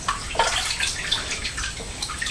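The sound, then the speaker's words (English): Running water splashes and gurgles as hands are washed with soap, an irregular, uneven wet patter with no talk. “Well, your hands should be beautiful and clean after using all that soap, shouldn't they?”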